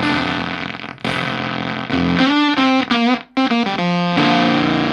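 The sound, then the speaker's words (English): Sputtering, Velcro-like fuzz from a Fuzz Face-style guitar pedal with its bias control turned down, played through a guitar amp: several buzzy, heavily distorted held notes that keep breaking up and briefly cutting out between them. “Also capable of a bunch of different sounds. It's got a bias control so you can get shitty Velcro sound.”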